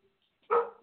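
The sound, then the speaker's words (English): A dog gives a single short, faint bark, alone and abruptly cut off. “If you hear a dog barking, just ignore it.”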